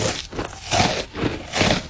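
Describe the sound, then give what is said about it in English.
Crunchy munching on snacks, with a few uneven swells of crisp biting and chewing noise and no voices. “munching on a bunch of snacks and we've got your back.”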